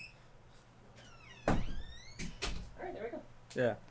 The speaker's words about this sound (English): I'm going to close the door real quick. Hold on.